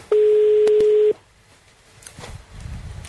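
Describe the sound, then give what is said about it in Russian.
An incoming telephone call signal: a single steady electronic tone lasting about one second, clear and loud, then fading into faint low background noise. “О, все, звонок, все, тихо.”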